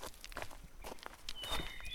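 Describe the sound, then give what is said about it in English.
Footsteps crunch along the floor of a ravine shaped by the course of a fast stream. Many steady, fairly quiet steps keep a walking rhythm throughout. “we're like literally in a gulch of some kind, right? Yeah, because we're like walking in a ravine marked by the course of a fast stream.”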